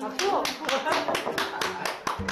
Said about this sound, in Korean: 박수.